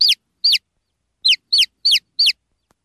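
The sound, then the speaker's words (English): Baby chicks peep in six short, high-pitched chirps with a gap after the first two, then come in a quicker run of four, alone against silence. “those are little baby chicks, which will one day become hens”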